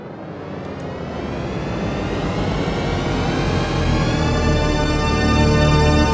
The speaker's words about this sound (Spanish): Atención, señoras y señores, abróchense los cinturones, aterrizaje forzoso.